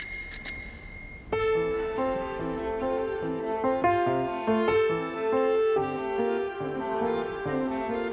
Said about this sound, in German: Es war eine alte Fahrradklingel, die sie zweimal betätigte.